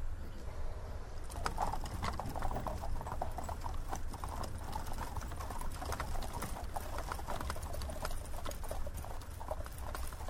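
Horse hooves clip-clop as a mare is ridden: many steady, evenly spaced hoof strikes keep up a brisk walking rhythm throughout, over a low continuous rumble.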